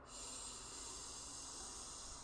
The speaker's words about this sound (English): the pattern of this breath is we begin by blocking the right nostril with our right thumb. And we inhale in through the left nostril.